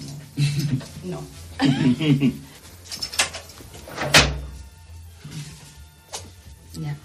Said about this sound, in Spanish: Este es el sonido de la puerta que protege estas joyas.